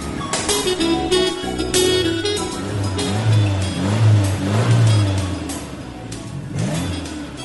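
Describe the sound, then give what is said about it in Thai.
Car engine note as vehicles ahead begin moving in stalled traffic, steady and fairly loud with a low droning hum that swells and eases throughout. “ขอบคุณพระเจ้ารถข้างหน้ากำลังเริ่มขยับแล้ว”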